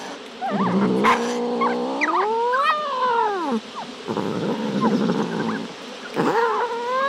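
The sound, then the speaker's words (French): An angry cat yowls in long, loud wavering wails whose pitch slides up and down, several cries following one another almost without pause. “Ce chat semble en colère.”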